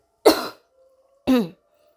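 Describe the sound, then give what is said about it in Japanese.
Two short, sharp coughs about a second apart, moderately loud and alone, with a faint steady hum beneath. “ちょっと咳をします。”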